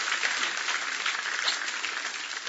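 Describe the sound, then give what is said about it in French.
Congregation applauding in church to acclaim Jesus: a steady, dense wash of many hands clapping, fairly faint and unbroken, with no voices over it. “on peut acclamer Jésus même si ce n'est pas facile”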